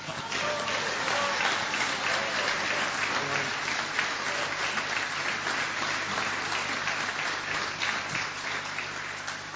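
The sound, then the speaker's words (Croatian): Sustained, even applause for the klapa singing group Sveti Juraj at a ceremony marking the 30th anniversary of the area's liberation, a dense crowd clapping steadily throughout without a clear break. “Naravno, može pljesak i za klapu Sveti Juraj.”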